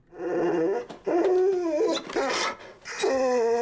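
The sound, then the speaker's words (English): Dog vocalising alone: several high, wavering whimpering and whining cries with howl-like drawn-out tones, fairly loud, separated by short breaks. “I bet that's your dog.”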